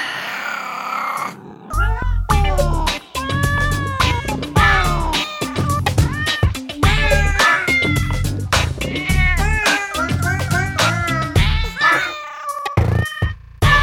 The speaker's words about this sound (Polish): No, chodź. Przywitaj się, kocie. No, kici, kici, kici.